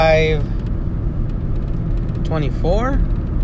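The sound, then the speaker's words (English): Steady low rumble of a car being driven home from work. The engine and road drone stays even throughout, and a voice talks briefly over it. “I'm driving home from work right now”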